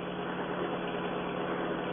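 A car engine hums steadily while driving straight down a highway, a continuous, even, low rumble with no breaks and no voices.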